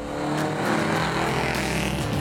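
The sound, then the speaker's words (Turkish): A vintage Austin 7 racing car at the Prescott hill climb gives a continuous loud, buzzing engine roar that holds fairly steady throughout the short burst, with no voices. “Tehlike araç. Geliyor, geliyor. Hazır olun, ilk müşterimiz. Austin 7 Oster.”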